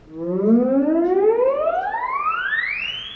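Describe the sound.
A theremin tone glides smoothly and steadily upward from low to very high pitch as the player's hand moves toward the pitch antenna, holding a loud, continuous, siren-like sound throughout.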